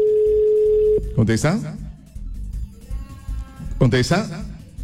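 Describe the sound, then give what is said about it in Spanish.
A steady telephone tone holds alone for about a second while a call is being returned, then cuts off as people begin talking over a low background. “En este instante vamos a devolver llamadas. Ahí estamos devolviendo llamadas.”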